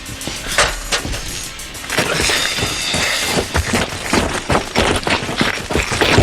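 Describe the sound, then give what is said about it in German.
A jumping-jack firecracker goes off in a rapid, irregular string of many sharp cracks and pops, loud and crackling throughout with no clear pauses. “Du hast ja nur einen Knallfrosch dabei!”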